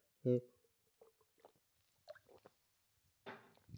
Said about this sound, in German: mal einen Schluck trinken, Moment.